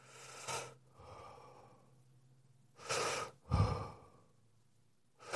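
Slow breaths in and out during a neck stretch with the chin to the chest, with a few soft, airy sighing exhales spaced by quiet pauses and no talking.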